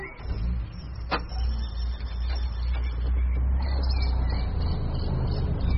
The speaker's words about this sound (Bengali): lorry ছুটছে